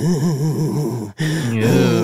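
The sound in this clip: A voice imitates an eerie wheezing sound: a low, wavering moan that warbles up and down. It breaks off briefly, then resumes with a sliding, quavering pitch, alone and without words.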